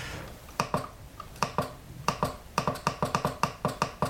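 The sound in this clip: Crisp clicks of a keyboard key being pressed gently, with a few scattered presses at first and then a quicker, steady run of many sharp taps. They are faint and heard alone.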